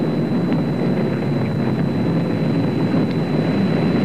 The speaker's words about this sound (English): The thrust is going all engines. Boy, is that a smooth ride.